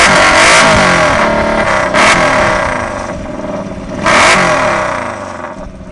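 Loud revving from a car fitted with a performance dual three-quarter exhaust system, a throaty, continuous rumble punctuated by a few sharp bursts of throttle that rise and fall.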